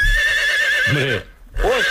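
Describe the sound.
A horse neighs in one long, loud, wavering whinny that breaks off briefly, then bursts out again.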